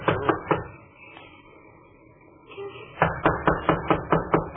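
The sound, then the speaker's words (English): Knuckles knocking on a door in two bursts: a few firm raps, a quiet pause, then a longer, steady run of quicker knocks. “Well, knock on the door anyhow.”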